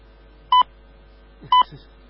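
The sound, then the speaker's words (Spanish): Two short electronic phone beeps signal an incoming call, loud and evenly spaced about a second apart, with near silence around them. “Ya voy, me está llamando mi novio.”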